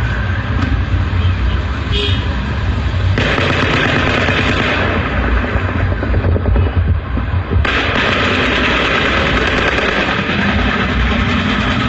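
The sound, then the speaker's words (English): An M60 machine gun fires from a distance as a dense, continuous roar of rapid shots, loud and steady for the whole stretch with no clear breaks between bursts. “There's the M60. Now it sounds like it's coming from farther away.”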